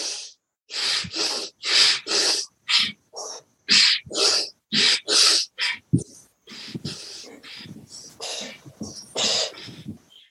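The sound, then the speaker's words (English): Rapid, forceful breaths pushed in and out through the nose while the arms pump up and down. Loud, sharp snorting bursts come in a fast, even rhythm, then give way to softer, more irregular breaths. “So you're going up and down with your arms in and out through your nose with your breath.”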